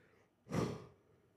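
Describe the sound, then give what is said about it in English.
A single person yawns, with one soft, breathy swell lasting about half a second. It is faint and heard on its own. “Sorry. Apologies for the yawning.”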